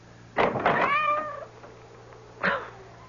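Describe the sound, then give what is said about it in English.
A cat meows at the front door at night, soaking wet from the rain: first a long, wavering meow, then a shorter second cry after a pause, over a low steady hum. “I didn't know he was still out. I thought we'd already let him in. That cursed cat. Go away. Away. Soaking wet, dripping with water.”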